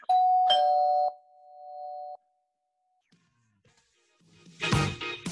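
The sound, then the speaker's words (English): A two-tone ding-dong doorbell chime: one sustained note followed by a second struck note half a second later, ringing out loudly and fading after about two seconds. A burst of other sound follows near the end. “That first doorbell wasn't for your pops, actually. It was for our guests, man.”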